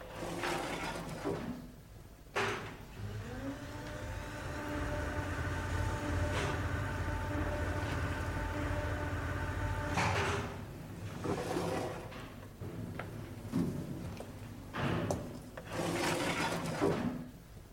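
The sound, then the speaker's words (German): An elevator door slides shut with a soft thud, then the lift motor starts with a rising hum. The hum settles into a steady drone for several seconds before stopping, followed by a few knocks and rustles. “Wenn Sie den Lift hier benutzen wollen, drücken Sie nur bitte auf den Knopf hier. Die Wohltaten der modernen Technik. All right, schließen Sie die Tür.”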